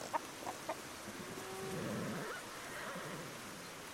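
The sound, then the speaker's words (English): Faint farm animal sounds in a valley, a few short clucking calls near the start, then a longer, lower drawn-out animal call over a soft, steady background. “Sweet sounds of all the farm animals fill the valley.”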